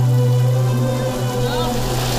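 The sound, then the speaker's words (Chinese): Rain from a heavy rainstorm in Guanghan pours down in a steady, even hiss with no breaks, and a low constant hum runs beneath it. “雨依旧下着，大棚外不少地方已经开始积水，”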